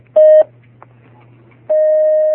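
Telephone tones as a listener's call-in connects: a short steady beep, then a low hum, then a longer sustained tone at the same pitch that runs to the end.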